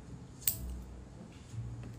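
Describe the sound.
A single sharp snip of fingernails being clipped short for guitar playing. The crisp click comes near the start, followed by quiet background hum and faint shuffling.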